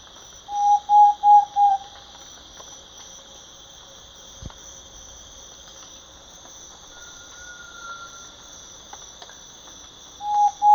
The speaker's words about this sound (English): thrush-like ant pitta.